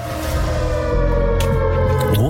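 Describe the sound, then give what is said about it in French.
A siren sets a catastrophe mood in a discussion of Chernobyl, holding a loud, sustained droning wail with layered tones that bends upward near the end. “On est dans l'ambiance de sirène.”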